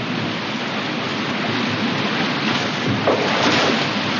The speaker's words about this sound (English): Both boats traverse a tricky drop, but there are more to come.